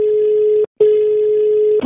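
A telephone line tone while a call is placed to people in Tuscany. One steady mid-pitched tone breaks off briefly, resumes at the same pitch and is cut short at the end.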